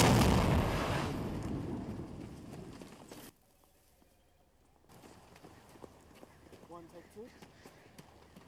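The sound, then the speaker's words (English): Explosion sound effect: a loud, broad roaring blast that slowly fades over about three seconds, then cuts to near silence before faint rustling and crackling noises return. “That's good, but the explosion needs to be bigger. There needs to be more fire.”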